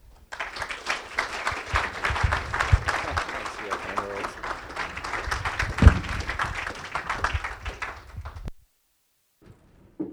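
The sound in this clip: An audience applauds to welcome a lecturer to an art history talk at Penn State's Palmer Museum of Art. Steady, dense clapping lasts about eight seconds and then stops abruptly into near silence.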